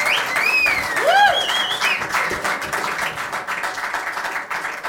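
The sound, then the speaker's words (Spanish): An audience applauds the first band at a jam session of national musicians with dense, steady clapping throughout. A few sharp, rising whistles cut through near the start. “Un aplauso por el primer grupo, porque lo hizo bacán.”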